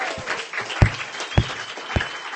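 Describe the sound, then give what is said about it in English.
An audience applauds after a performer at a reading event, with steady clapping and a few louder, sharp claps standing out above the rest. “That is Andrea, ladies and gentlemen. Give her a hand.”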